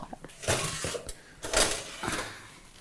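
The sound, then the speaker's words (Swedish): Loaves of bread being taken out of an oven, with a few clattering, scraping knocks from trays or the oven door, moderately loud with no voices. “nu kommer bröden upp ur ugnen”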